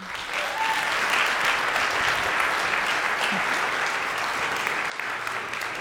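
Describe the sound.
A church audience applauds to welcome a guest speaker, a steady, dense wash of clapping that holds at an even level for several seconds and dips briefly near the end.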